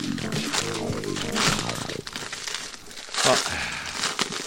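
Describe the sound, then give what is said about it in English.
Packaging is unwrapped with crisp, crackly crinkling that comes in uneven bursts, while people talk over it. “While we're unwrapping here.”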